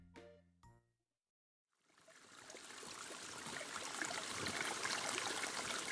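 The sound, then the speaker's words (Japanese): River stream water flowing: a steady rushing, babbling wash that fades in after a few brief tonal notes and a short silence, then grows fuller and holds. “シマウマくんがお水を飲もうと川へやってくると”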